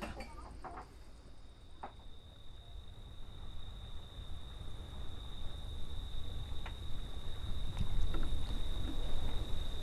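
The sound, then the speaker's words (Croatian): Wind rises over the sea at an anchorage as a low, rumbling gust noise. It starts faint and grows steadily louder, with a few soft knocks heard along the way. “Kao da se diže neki vjetar.”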